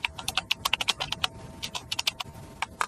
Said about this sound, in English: And then I can type in a location, and I can set recurrence.